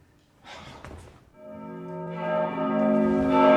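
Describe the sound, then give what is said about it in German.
A church bell of San Marco rings out in a sustained, resonant tone that builds and grows louder through the second half, preceded by a brief breathy noise. “Die Glocke von San Marco ist nicht verdammt!”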